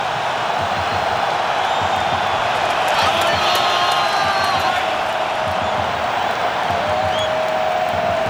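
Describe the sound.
A football stadium crowd roars as a goalkeeper makes a save in a match against Bosnia. The cheering forms a dense, steady wash of noise throughout, with a commentator talking over it.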